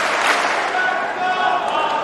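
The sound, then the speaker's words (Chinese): A crowd at a sports match chants a player's name and cheers him on, forming a dense, steady roar of many voices with no clear gaps. “现场在喊着费里的名字，观众呢在给他加油鼓劲儿。”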